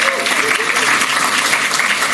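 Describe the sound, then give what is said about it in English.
Audience applause at a community development event, a steady, dense wash of clapping that holds at an even level throughout, with a voice briefly audible over it. “I knew mentioning Teresa would be easy applause.”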